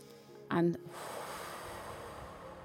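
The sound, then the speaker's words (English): A deep breath drawn in through the nose during a guided relaxation session for lower back pain: a brief voiced, snort-like sound, then a long, steady, airy inhale at moderate loudness. “So, if you just take a deep breath through your nose”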